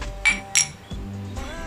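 Two wine glasses clink in a toast, giving two bright, sharp clinks in quick succession, then a low, steady background hum.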